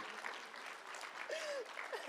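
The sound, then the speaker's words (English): Audience clapping and cheering, dense and continuous, with a whoop rising above the applause; steady and fairly faint throughout. “Well, that's a good place to clap, number one.”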